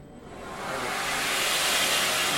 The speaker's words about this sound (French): Et après, j'assemble la partie bois dessus, donc, que je fais avec backstand. Donc je vais mettre un peu de bruit dans vos oreilles.